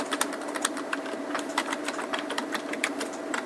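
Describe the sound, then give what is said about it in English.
Quick typing on a computer keyboard as a name is entered into a form: a dense, fast run of light clicks at a fairly even pace, soft throughout, with no voices. “So I'm going to type in somebody's name.”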